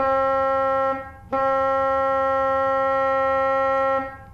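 An oboe-like reed stop on a pipe organ sounds two notes at the same pitch: a short one, then a longer held one lasting nearly three seconds. The tone is steady, reedy and rich in overtones.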